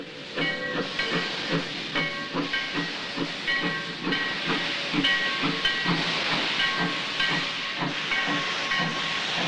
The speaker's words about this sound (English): Belching out smoke and steam, a freight train pulls into the station, its headlight glowing.